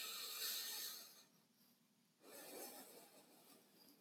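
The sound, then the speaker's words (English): Breathing in and out through a single nostril while the other is held closed, heard as two soft, airy hissing breaths separated by a short quiet pause, faint and without talk. “we'll close it on one of the nostrils and sound really funny. And then we'll do an inhale in and an exhale out the same nostril.”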